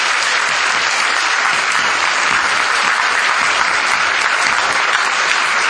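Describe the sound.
Dense, loud applause from an audience at a university graduation ceremony, a steady unbroken wash of many hands clapping that holds at an even level throughout.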